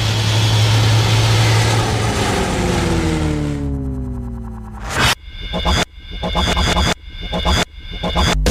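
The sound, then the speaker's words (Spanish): An airplane engine prepares for takeoff with a loud, low propeller drone and whirring harmonic tones, then breaks into choppy, stuttering cuts that give it a processed radio effect. “Estamos a punto de despegar abrochen su cinturón.”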